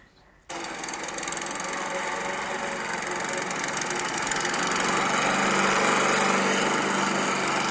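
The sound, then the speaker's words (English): Lawnmower engine running, kicking in abruptly after a brief moment of quiet and then holding a steady, loud, buzzing drone throughout. “It's a lawnmower.”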